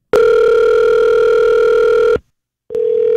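Telephone dial tone, a steady, loud, unbroken hum that holds for about two seconds, cuts out into a short silence, then comes back on.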